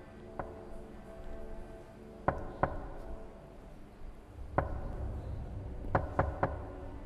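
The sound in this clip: Sharp knocks come from inside a coffin hard enough to shake it. Several distinct raps are spaced irregularly, some in quick pairs and a triple, over a faint low rumble.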